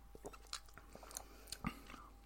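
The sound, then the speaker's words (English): Chewing and biting into a star-shaped food being tasted, a few soft, moist crunches and mouth sounds, faint and alone. “Okay, so it's a star. Not allowed to know what's in it, so we're going to have to just dive in and taste it.”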